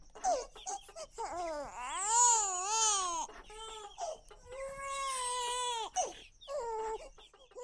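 A two-month-old baby crying in a restaurant in Yaoundé, Cameroon: several clear, high-pitched, quavering wails with short breaks between them, with no other voices.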